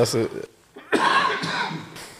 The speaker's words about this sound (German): du musst langsam aus der Kälte, man hört es an deinem Husten.